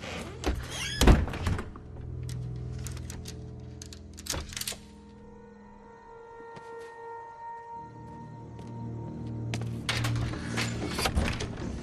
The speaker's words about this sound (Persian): یه عوضی تو اتاق کناری مونه هی میکوبه به در، جوابم نمیده.